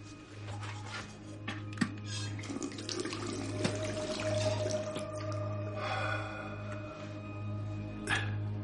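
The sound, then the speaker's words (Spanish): Tap water running in a bathroom while teeth are brushed, a steady, fairly quiet splashing stream over a low hum, broken by a few sharp clicks. “En el baño, Mark se lava los dientes.”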